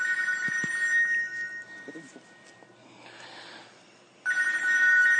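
A mobile phone ringtone sounds as a bright electronic tonal ring. It comes in two bursts, separated by a quieter stretch with faint background noise.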